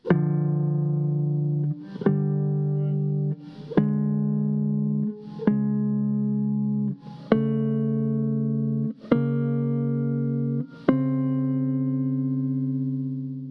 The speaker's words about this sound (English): The theme is actually seven two-note chords and sounds like this.